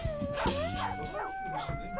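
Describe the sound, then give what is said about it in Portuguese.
A husky dog howls in one long, sustained, wavering note that rises slightly in pitch and holds steady, with other rustling sounds underneath. “Uiva! Husky, né? Uiva.”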